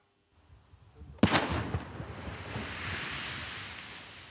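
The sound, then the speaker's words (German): A powerful blast from the controlled detonation of an American WWII fragmentation bomb, found among freshly harvested potatoes and blown up in a farm field. A single sharp, loud boom breaks faint low rumbles, then a long rolling roar slowly dies away. “3, 2, 1 und dann ein gewaltiger Knall. Im Kreis Osnabrück ist mitten auf einem Acker eine Bombe gesprengt worden.”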